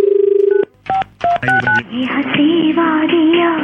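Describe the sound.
A telephone number is dialed: a steady electronic tone gives way to a quick string of clipped keypad beeps, followed by a voice.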